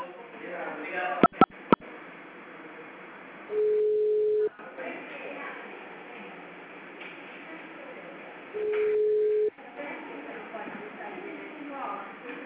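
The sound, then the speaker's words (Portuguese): Two steady mid-pitched beeps from an office phone system after an automated menu message, each lasting about a second and separated by muffled line noise, with a few sharp clicks near the start. “Atendimento digital. Após o sinal, digite o ramal desejado ou aguarde.”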